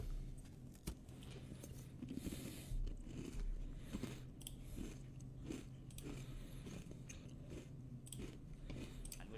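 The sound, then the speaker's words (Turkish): Someone chews a mastic biscuit with quiet crunches and bites repeated steadily, and there are soft mouth noises between them. “Kusura bakma chat çok acıktım. Müsaade var mı? Yiyorum ama.”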